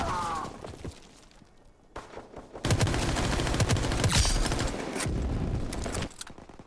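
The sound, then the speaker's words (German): Rapid submachine gun fire in a video game rattles out in loud, sustained bursts, broken by brief pauses and followed by sharp, crackling shots. “Ah, wieder mal eine Spray and Pray SMG. Beste Waffe.”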